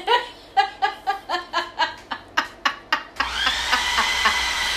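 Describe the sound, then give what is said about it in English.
A blender whirs as it blends food during a taste test, starting up with a loud, steady, high-pitched motor drone after a run of rhythmic, pulsing laughter. “One more quick blend and then we're good. One more quick blend and then we can manage a bowl”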